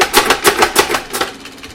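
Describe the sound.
A hand-spun spin art machine whirs with a painted card on it, making a rapid series of rhythmic, rattling pulses that spread out and grow fainter as the spin slows.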